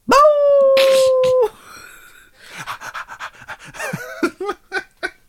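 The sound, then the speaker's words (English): A person imitates dog noises with their mouth, starting with a long, steady, howl-like whine. A string of quick, breathy panting bursts follows, rising and falling in loudness. No words are spoken. “why are you making dog noises with your mouth? The dog can make those noises. Yes, that's a dog noise.”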